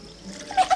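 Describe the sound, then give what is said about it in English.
Coffee poured from a filter jug: a brief, soft liquid trickle that swells into two short splashy bursts near the end, fairly faint and with no talk. “goes to pour coffee from a filter jug and talks to herself.”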